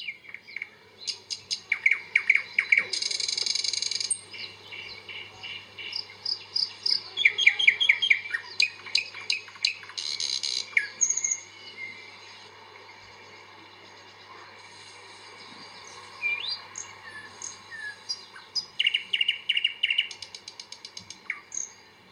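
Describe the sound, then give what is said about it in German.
A thrush nightingale sings in varied bursts of loud rattling trills, sharp clicks and clear whistles, separated by short pauses, with a quieter stretch midway before the song resumes. “Das müsste ein Sprosser sein, den wir da hier gerade hören.”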